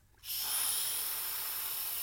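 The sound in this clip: Steady, bright hiss from a breath-activated nasal spray device, starting abruptly and holding at an even, moderate level for about two seconds without talk.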